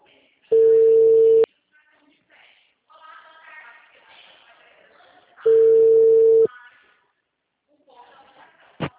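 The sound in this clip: Telephone ringback tone: two long, steady beeps of about a second each, separated by a pause of several seconds in which faint voices can be heard. A brief click sounds at the very end.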